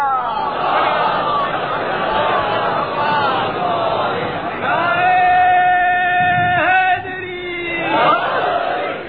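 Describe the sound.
A religious gathering chants salawat together. Many voices hold long tones over a loud crowd murmur, and the sound swells briefly louder near the end.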